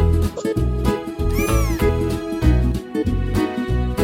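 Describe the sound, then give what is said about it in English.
A cat gives one clear, drawn-out meow that rises and falls in pitch over a steady, rhythmic music track. “Cats like to chase mice. A baby cat is called a kitten.”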